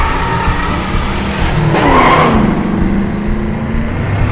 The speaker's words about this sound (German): Das Lenkrad ist fixiert, das Pedal gedrückt. Jetzt Gang rein.